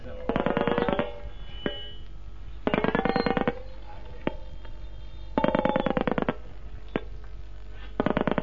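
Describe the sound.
A rotary telephone dial turns and spins back in four bursts of rapid, evenly spaced clicks, each about a second long. Single clicks fall between bursts over a steady low hum, and the last burst is cut off.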